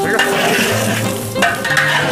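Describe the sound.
Food is stir-fried in a pan with a spatula: a steady loud sizzle with scraping and pushing strokes of the spatula against the pan, with no talking.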